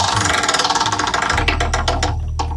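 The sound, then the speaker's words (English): A spinning game-show prize wheel gives off fast rattling clicks that space out as it slows toward a stop, over a steady low hum. “You see different categories every time on the spin of the wheel.”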